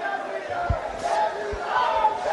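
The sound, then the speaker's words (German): A crowd singing and cheering for Indian Prime Minister Narendra Modi at a temple inauguration in Varanasi, sustained massed voices with sung tones and a few dull low thuds beneath. “Sie singen und sie jubeln dem Premierminister zu.”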